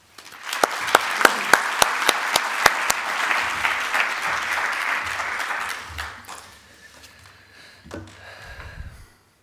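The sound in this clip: Audience applause welcoming a speaker to the stage at a talk: dense clapping with sharp, distinct hand claps for about six seconds, then thinning and dying away to scattered claps.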